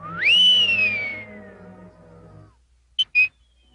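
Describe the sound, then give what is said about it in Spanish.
Whistling storm wind as a sound effect in a 1934 animated cartoon: a single high whistle swoops upward, then glides slowly downward over a low tonal background. It is followed by two short, sharp high chirps. “El viento silbaba.”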